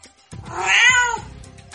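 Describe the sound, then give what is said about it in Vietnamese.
A kitten cries out while pinned under a big claw: a single loud, drawn-out meow that swells and then tapers off, lasting about a second. “Mèo con bị đè dưới móng vuốt to, đáng thương hề hề kêu lên.”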